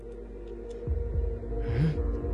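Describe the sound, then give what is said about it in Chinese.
Heartbeat-like thumps sit inside a song, a few soft low beats over a sustained musical hum, with a short sliding tone in between. “有啵啵声的。 心跳啊。”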